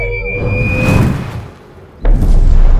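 A flaming orb spell explodes during a fight, starting as a swelling fiery whoosh with falling tones. It dips briefly, then ends in a sudden, loud, booming blast.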